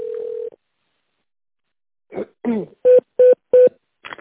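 Touch-tone keypad beeps sound in an automated phone menu: a steady tone opens, then after a pause come three short, evenly spaced beeps.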